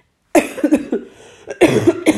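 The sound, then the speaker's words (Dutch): Someone coughs in a harsh, loud fit: a quick run of several coughs, a short lull, then another cluster of coughs, with no talking in between. “Sorry, even een hoespuit tussendoor.”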